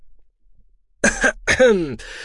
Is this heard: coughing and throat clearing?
yes